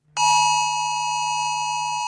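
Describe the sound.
A civil defense emergency alert tone sounds on a mobile phone, a sudden electronic chime with bright ringing overtones that starts sharply and holds steady for about two seconds.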